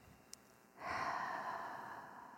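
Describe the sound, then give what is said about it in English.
A deep breath in during a guided breathing exercise: a soft, airy inhale that swells suddenly and holds steady, quiet and alone. “just start by taking three deep breaths. Inhale.”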